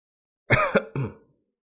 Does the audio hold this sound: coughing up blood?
yes

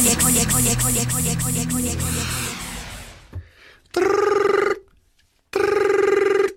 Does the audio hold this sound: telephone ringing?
yes

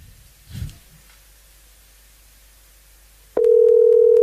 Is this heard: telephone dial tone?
yes

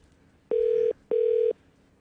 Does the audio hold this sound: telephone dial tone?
yes

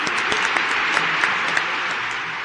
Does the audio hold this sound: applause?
yes

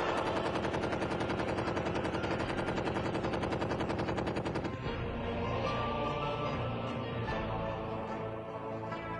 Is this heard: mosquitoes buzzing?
no

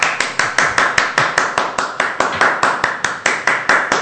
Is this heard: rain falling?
no

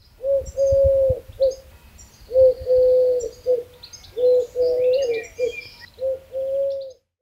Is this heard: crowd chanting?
no

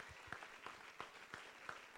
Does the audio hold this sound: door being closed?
no

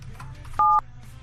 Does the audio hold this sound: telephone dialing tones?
yes

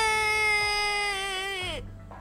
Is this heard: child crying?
yes

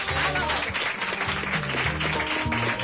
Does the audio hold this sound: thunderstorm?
no

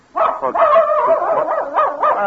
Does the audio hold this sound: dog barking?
yes

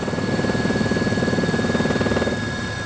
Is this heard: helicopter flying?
yes

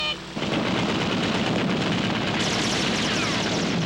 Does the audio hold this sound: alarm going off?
no

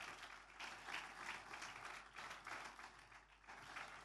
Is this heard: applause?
yes

